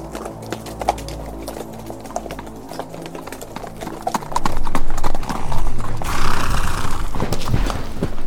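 Horse hooves clip-clopping under a rider: sparse, crisp hoofbeats at first, then a denser, louder run of steps for the second half.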